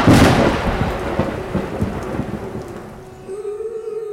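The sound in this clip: A night thunderstorm with rain: a loud crash of thunder at the start rolls off into a fading rumble, while steady rain hisses throughout.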